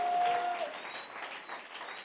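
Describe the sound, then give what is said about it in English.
A church audience clapping their hands together, a brief, dense patter of many hands at moderate volume, steady through the short stretch with a faint tonal ring near its start. “Give Jesus a big hand clap, somebody. Give Jesus a big hand clap.”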